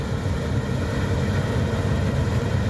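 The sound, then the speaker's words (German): A steady, loud, low engine drone from a Claas Lexion combine harvester with a 9.3 m header approaching while cutting barley. The rumble stays continuous throughout, with no talk. “da fährt der Mähdrescher auf ihn zu, auf Volker. So, kommt der Klaas Lexion auf uns zu marschiert. Mit 9,30 Meter Schneidwerk.”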